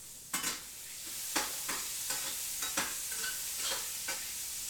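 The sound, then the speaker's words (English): A utensil stirs and mixes food in a hot pan, making repeated scraping strokes at an uneven rhythm over a steady, soft sizzle. “Mixing.”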